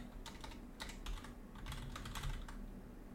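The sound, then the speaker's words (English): Fingers type on a computer keyboard in quiet, irregular bursts of light plastic clicks and key taps, with short pauses between runs and no talking. “Oh, my God. I can't type.”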